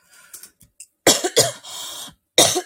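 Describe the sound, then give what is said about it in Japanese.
A coughing fit from choking on something: a few faint throat sounds, then several loud, harsh coughs in bursts, one drawn out into a longer rasping spell before a final hard cough. “ごめんなさい、ちょっと待って。むせだ。”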